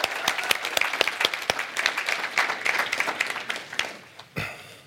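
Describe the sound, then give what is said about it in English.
A church audience applauds to welcome online viewers, with dense, lively clapping from many hands for about four seconds before it cuts off abruptly. “So we welcome everyone watching online. Can we put our hands together? And if you're in the room, just welcome the people watching online.”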